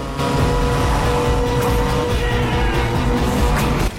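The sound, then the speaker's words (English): A Ford Mustang races along a mountain road. Its loud, sustained engine roar carries steady whining tones and stops abruptly just before the end. “Sean struggles as the Mustang veers too close to the edge of the road, its back bumper skimming over the top of the precipice. He regains control and remains hot on DK's tail.”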